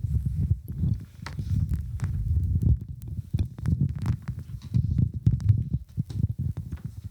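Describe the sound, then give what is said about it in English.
Handling noise from a microphone cord being untangled: continuous low rumbling and rubbing with many soft thumps and knocks, with no talk. “So something else I wanted to speak on too, but give me one second. Let me untangle this mic cord.”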